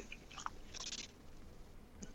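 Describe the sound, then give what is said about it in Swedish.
Someone chews and eats slices of roast beef, quiet moist mastication with a few crisp little bites and smacks, no voices heard. “vad är det du sitter och äter på?”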